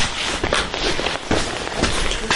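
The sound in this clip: Footsteps of someone walking toward a reception area, heading for the stairs: many quick, irregular steps that blend into a busy, noisy background, with no clear voices.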